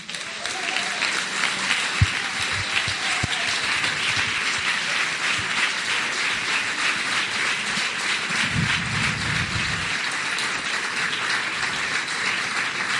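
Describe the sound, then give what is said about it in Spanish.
Audience applause welcoming a speaker at a conference, an even, sustained wash of clapping that runs for about thirteen seconds, with a few sharper low thumps early on. “Me gustaría que recibierais con un fuerte aplauso a nuestro próximo ponente.”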